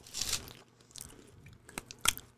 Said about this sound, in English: Yeah, they taste like those little bears. Honey, oh, Teddy Grahams. Yeah, they taste like a Teddy Graham.